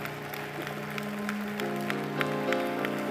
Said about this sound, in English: Come on, give a great hand to our online audience today.